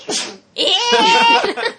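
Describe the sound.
A single sharp sneeze bursts out at the start, followed after a short pause by people talking and laughing.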